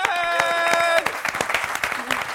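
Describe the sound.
Applause and clapping from a small group, with sharp, distinct claps at an uneven rhythm, loudest at first and then thinning to scattered claps, along with voices.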